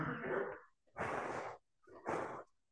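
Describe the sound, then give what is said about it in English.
Breath blown to make a spinning toy turn: three strong, breathy gusts of air, each about half a second long and separated by brief pauses. “When I blow this, it makes it turn, but you can't, there's nothing that you can see that comes out my mouth, but my breath is making that turn.”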